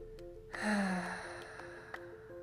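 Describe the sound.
A slow exhale of breath during a guided breathing exercise: one long, soft, airy breath that swells and then fades, over a faint steady background tone.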